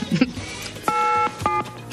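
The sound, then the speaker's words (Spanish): Touch-tone beeps of a telephone number being dialed: two steady electronic tones, the first longer than the second, after a few brief, faint sounds at the start. “está llamando. Está marcando”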